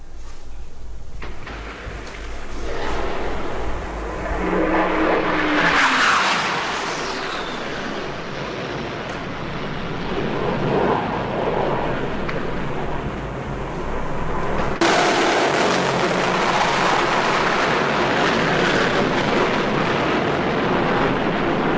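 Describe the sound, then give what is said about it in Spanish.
Aircraft roar over the city of Santiago during explosions and gunfire: a loud, sustained, broad rushing noise with a sweeping tone midway, then a renewed surge in the second half. “El humo de las explosiones y los disparos está dificultando la visibilidad hacia las calles de la capital. Allá vienen de nuevo los aviones.”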